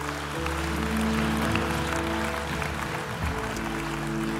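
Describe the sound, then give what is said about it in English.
Audience applauding at a church service after a prayer, a steady, dense wash of clapping that holds at an even level from start to finish. “Hey, can we just put our hands together for everyone who prayed that prayer today?”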